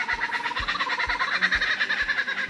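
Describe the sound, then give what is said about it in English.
Kookaburra call: a dense, continuous cackling chatter of bird cries that stays loud throughout, with regular low thuds pulsing beneath it about every half second. “It's the call of the kookaburra, which does actually kind of sound quite strange to someone that's never heard that sound. It kind of sounds like a monkey laughing, but it's not. It's a bird.”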